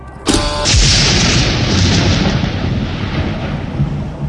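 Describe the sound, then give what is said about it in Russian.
A spaceship's weapons fire a single loud salvo at an oncoming planetoid: a sharp, booming crack that swells into a long, roaring rumble and fades slowly. “«К залпу готовы?» «Да, сэр!» «Огонь!» — скомандовал Хопкинс.”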